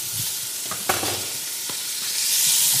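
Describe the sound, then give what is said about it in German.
Ingredients sizzle and fry in hot oil, added one after another and stirred, with a steady bright hiss and a few short scraping clicks. The sizzle swells louder toward the end, and no one speaks. “Das heißt, man brät das jetzt alles irgendwie nacheinander an.”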